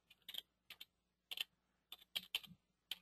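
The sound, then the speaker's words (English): A website address is typed on a computer keyboard as many faint, crisp key clicks in short, uneven bursts, some single taps and some quick clusters, separated by brief pauses. “Okay, so now we've typed in that website and we click on continue.”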